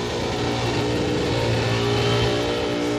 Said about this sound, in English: He's got it on the rev limiter. Hear it bouncing?